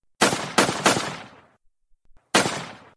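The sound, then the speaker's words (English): Gunshots in a comedy sketch: three loud, sharp bangs in quick succession, each with a decaying tail, then a short pause and a fourth bang. “You shot me!”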